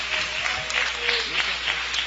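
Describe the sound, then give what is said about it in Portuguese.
Congregation applauding during a church service, a steady even wash of clapping at moderate level that holds throughout without clear breaks. “Palmas para Jesus, irmãos.”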